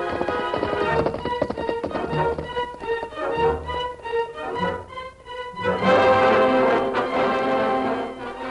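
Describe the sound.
Horses galloping on a road during a pursuit, a rapid, driving run of hoofbeats that stays loud and steady throughout, briefly dipping midway before surging back.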